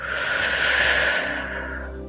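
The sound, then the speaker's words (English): A slow, deep breath, heard as one long, steady, airy hiss of air with no talking. “I want you to start by taking a deep breath in and a deep breath out.”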